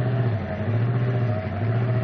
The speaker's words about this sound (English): What happened? Car stalled. We're carrying too big a load.